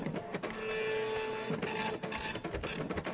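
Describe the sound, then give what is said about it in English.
A printer prints out an email, with steady mechanical whirring and grinding broken by a few rhythmic dips and clunks as the paper feeds through. “I'm printing it out, and we're going to email it to you.”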